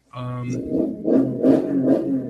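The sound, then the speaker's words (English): A vehicle engine revs and pulls away in a few surging pushes of throttle, with a rough, low, harmonic drone that swells and eases. “Damn. Yeah, that's somebody riding off.”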